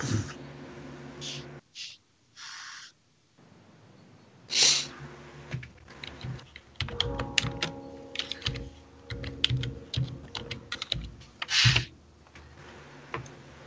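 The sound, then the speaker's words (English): Typing on a computer keyboard: many quick, irregular key clicks in uneven bursts with short pauses, growing denser in the second half. “Easy on the typing there, whoever that is.”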